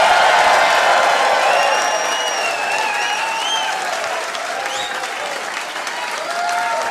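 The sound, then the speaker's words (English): An audience applauds to welcome a comedian to the stage. The clapping is loud and dense at first, then eases slightly and continues steadily to the end. “Ladies and gentlemen, would you please put your hands together and welcome to the stage, Luke Hegging!”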